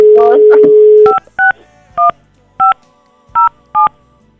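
Dialing tones from a telephone number being entered: a steady dial tone holds for about a second, then six short, loud keypad beeps sound one by one with brief gaps between them.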